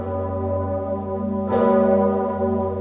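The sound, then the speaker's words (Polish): The great historic bell of Wawel Cathedral in Kraków tolls for a papal ceremony. A deep, sustained humming tone is renewed by one fresh strike midway, and its rich overtones ring on steadily. “w Rzymie, w Krakowie, wawelscy dzwonnicy uruchomili słynny dzwon. Był to piąty raz w historii, gdy dla Benedykta XVI z katedry na Wawelu bił dzwon Zygmunta.”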